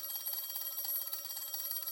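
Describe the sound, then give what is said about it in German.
A telephone bell ringing in a rapid, high-pitched trill that whirs on without pause from start to end. “Das Telefon schwirrte.”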